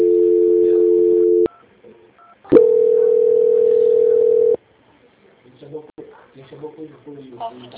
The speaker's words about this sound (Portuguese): Não desligue, por favor, só um minuto. Transferência.